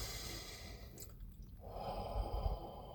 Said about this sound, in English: I'm going to breathe